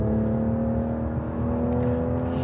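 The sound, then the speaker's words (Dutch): Toyota Supra sports car engine running while driving near Madrid, a steady, loud low drone with strong layered harmonics that holds for the whole stretch, with no talk over it. “We gaan rijden. De rijimpressie. Wouter voelde deze week in de buurt van Madrid de Toyota Supra aan de tand.”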